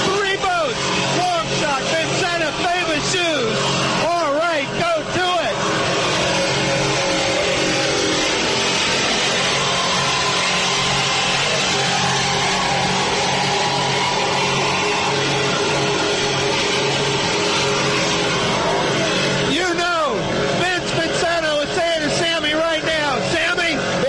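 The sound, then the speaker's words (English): Roaring engines of offshore powerboat racing boats, a loud, continuous, dense drone that holds steady for the whole stretch, with voices talking over it near the start and end. “He's sticking it to him. This is offshore powerboat racing at its best.”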